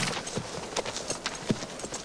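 Horses' hooves clip-clop as riders pass through a village: a faint, quick, irregular run of many hoof strikes.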